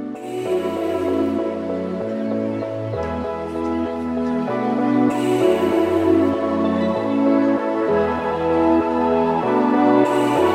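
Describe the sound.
An upbeat pop song plays loud and continuously, with a prominent bass line under layered instruments and a steady, repeating groove.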